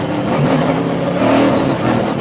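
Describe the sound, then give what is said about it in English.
A powerful car engine accelerates on a race track during a fast lap, a loud, steady roar that holds throughout with no talk over it. “But you can hear what the power this car has.”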